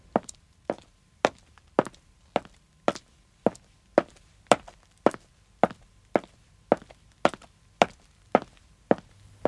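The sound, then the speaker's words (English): Slow footsteps of a man walking down a street: many crisp, evenly spaced heel taps in a steady, unhurried rhythm, heard alone against a quiet background. “He walks slowly from the other side of the street. They walk towards the town centre.”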